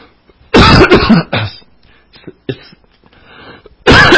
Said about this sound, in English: It's time for me to quit because when I get talking too much, I start coughing.